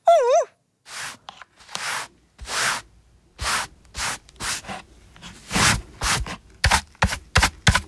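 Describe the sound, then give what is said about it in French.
A broom sweeps the floor with many brisk, breathy swishing strokes that come faster and closer together toward the end. A brief warbling tone sounds at the start. “Il ne reste plus qu'à balayer.”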